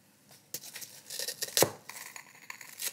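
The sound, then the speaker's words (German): Spoon breaking into a lava cake with strawberry sauce on a plate, with a few crisp cracks, scraping clinks and a sharper crunch in the middle. “Und jetzt zerläuft wahrscheinlich, wenn ich das aufbreche mit meinem Löffelchen, die Lava-Erdbeersoße über den Teller.”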